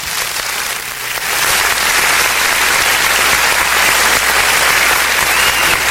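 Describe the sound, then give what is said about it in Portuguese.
Applause for birthday celebrants: dense, continuous clapping from a crowd that swells after the first second and stays loud and even to the end. “para todos os aniversariantes aquela salva de palma, né?”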